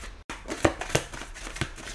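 Tarot cards are shuffled and drawn: faint papery flicks and soft snaps at irregular intervals.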